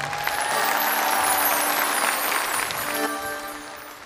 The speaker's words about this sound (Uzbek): Bir qarsak bo'lsin mehmonga.